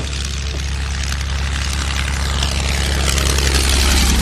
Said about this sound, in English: The sound of the tanks has been concealed by low-flying aircraft